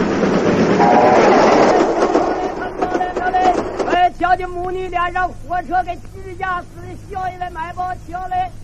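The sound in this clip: A train passes on rails with a loud, rushing rumble and rattling that fills the first few seconds, then fades as distressed voices cry out over the lingering noise.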